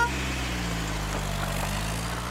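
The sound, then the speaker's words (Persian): A car's engine rumbles with a low, steady hum at even loudness as the car drives away, with no other sounds over it. “ماشین مرتضی دور می شود.”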